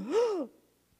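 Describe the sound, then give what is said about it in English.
A person imitates the deep final inhale of a dying man with a single voiced gasp lasting about half a second. Its pitch rises and then falls before it trails off into quiet breath. “And then he inhaled like this,”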